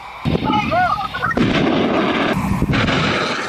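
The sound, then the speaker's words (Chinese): A rocket artillery salvo fires during a military live-fire exercise, with a four-round volley ordered. A few loud, roaring launch blasts follow one another, and a voice is heard briefly at the start. “随着指令下达，各火力单元依次开火，火箭弹呼啸出膛”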